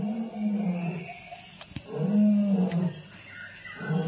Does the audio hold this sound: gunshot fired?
no